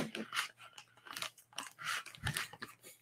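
Someone crunches and chews a miso cookie with many brittle bites and chews in an uneven rhythm, faint and close, with no talking.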